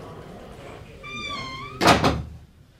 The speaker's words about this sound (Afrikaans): Kom sit, wat ek die deur toemaak.